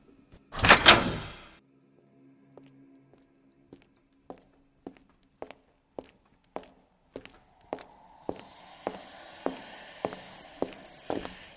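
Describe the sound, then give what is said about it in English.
A door is kicked in inside a mansion in a video game: one heavy, loud crash near the start, then many regular tapping footsteps that gradually grow louder. “We got to get through this house. Let's kick down more doors.”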